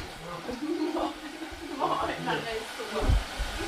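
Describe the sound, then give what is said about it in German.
A hair dryer blowing as someone dries their hair, giving a steady airy whoosh underneath voices talking throughout. “Mama föhnt sich die Haare.”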